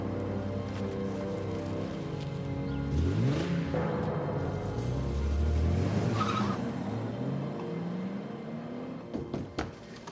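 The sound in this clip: A family car pulls away with tires squealing, its engine revving up in pitch twice over steady road roar. It stays fairly faint throughout, with no talk.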